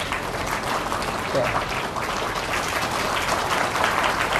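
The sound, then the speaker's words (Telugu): Steady, dense applause from a gathering of about 220 devotees at a religious discourse. Many hands clap evenly and loudly throughout, with no clear breaks. “మీకోసం వాళ్ళు చప్పట్లు కొట్టారు కదా, మరి వాళ్ళ కోసం మీరు కొట్టద్దా?”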